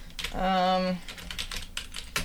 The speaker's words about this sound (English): I'm just going to judge based on how long you type.